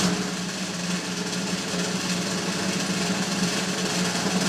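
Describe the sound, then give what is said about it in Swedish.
A sustained drum roll before the winner of a music talent contest is announced: a dense, steady rattle that holds at an even level for the whole stretch without a break. “Vi har ingen aning och nu kör vi en trumvirvel.”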